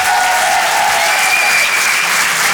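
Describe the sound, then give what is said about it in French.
An audience applauds a comedian leaving the stage at the Rire et Chanson Comedy Club, with dense, loud, unbroken clapping that holds steady throughout. “Faites du bruit, s'il vous plaît, pour Nina Azoulay.”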